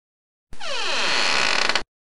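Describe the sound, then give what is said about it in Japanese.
The door of a room creaks open in one drawn-out, sliding creak lasting just over a second, ending in a brief quick rattle before it cuts off into silence. “ここに3つの部屋があります。まずは1部屋目。それでは開けるわよ。”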